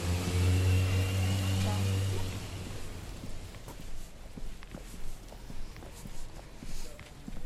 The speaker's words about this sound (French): On voit déjà le train passer.